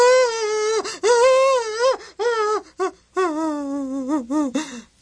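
Anguished wailing and crying of mourning over a death: loud, drawn-out voiced cries with wavering, sliding pitch, broken into a series of sobbing bursts by short gasps.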